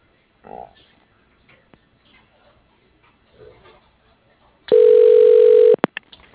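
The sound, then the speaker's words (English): A telephone ring tone sounds as a call is transferred to an extension: one loud, steady, buzzing tone lasting about a second, heard over a narrow phone line after near silence with a few faint noises. “Please hold while I transfer your call to that extension.”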